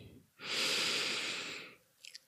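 A single long, deep breath taken during a mindfulness exercise, a loud, airy rush of air that starts abruptly, holds steady for over a second, then fades, followed by a couple of faint clicks.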